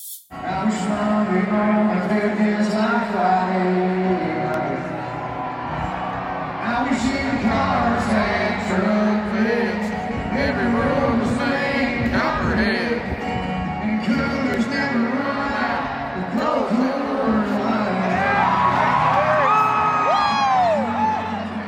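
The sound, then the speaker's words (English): A concert audience cheers at a beer-brand lyric changed to name Coors Light. Loud, sustained crowd noise with whoops and shouted voices continues for about twenty seconds without letting up. “And listen to the audience's reaction to that. Here it is.”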